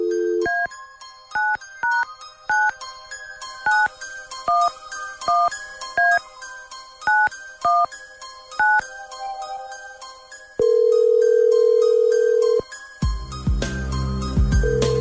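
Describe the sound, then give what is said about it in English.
A telephone number being dialed at random: many short keypad tones beep in quick succession at varied pitches, followed by one long, steady ringing tone. “Okay, here we go. Dialing at random.”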